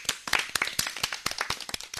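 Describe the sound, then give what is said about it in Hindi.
Audience applause during a children's program: many quick, sharp claps in a steady, dense patter that lasts the whole two seconds at moderate loudness. “सभी इस बात पे तालियां बजाएं।”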